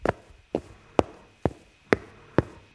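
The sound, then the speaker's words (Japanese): Six footsteps walking at an even pace through a school's entrance hall by the shoe lockers. Each step is a sharp, hard tap with a brief decay, set apart by short silences. “とりあえず、学校を歩いてみようと思います。今は、昇降口下駄箱にいます。”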